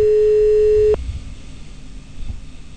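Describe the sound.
A telephone line tone plays while calling a parish church on Avenida Mitre in San Rafael, Mendoza. One loud, steady mid-pitched beep lasts about a second, then cuts off abruptly into faint line hiss.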